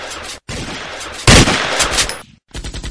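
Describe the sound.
Gunfire sound effect from a shootout among stacks of salt sacks inside a factory: dense, crackling volleys of shots with a brief gap, then a sharper, louder blast midway and more bursts after a short pause.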